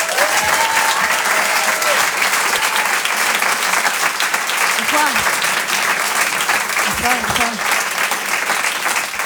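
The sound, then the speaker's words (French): Sustained audience applause fills the whole stretch at a French comedy show, a dense, loud wash of clapping from a large crowd with a few faint whistles and cheers rising above it, steady throughout. “Je vous demande une ovation s'il vous plaît pour Elisabeth Buffet.”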